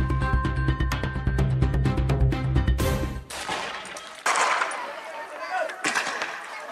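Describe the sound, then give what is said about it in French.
Tear gas launchers fire during a stone-throwing protest in Cusco, Peru. A busy stretch of sharp cracks gives way to a few separate loud bursts in the second half. “Tir de gaz lacrymogène contre jet de pierre.”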